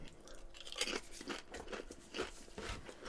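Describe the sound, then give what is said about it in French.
Crunching of Pringles potato chips being chewed, several soft, brittle crunches in an uneven rhythm, quiet and with no talk. “Ça goûte donc bizarre, Pringles. J'ai jamais été un gros fan, moi, des chips Pringles,”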